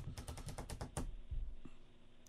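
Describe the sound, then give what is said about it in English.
Typing on a laptop keyboard: a fast run of crisp key clicks lasts about a second, followed by a few scattered taps. The sound is fairly quiet throughout. “I'm writing it down on my laptop.”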